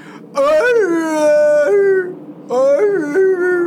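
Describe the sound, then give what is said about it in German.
A wolf gives two long, tonal howls separated by a short gap. Each starts with a quick upward sweep, then drops to a lower note that is held and slowly fades. “das war irgend so ein Vieh, vielleicht ein Fuchs oder so. Das ist ein Wolf.”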